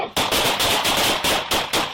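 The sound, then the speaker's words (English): Gunfire from police body camera footage of officers shooting an armed man at his door at night: a rapid series of loud, sharp, crackling shots in quick bursts with no voices. “body cam footage has now been released of a man shot and killed by police officers.”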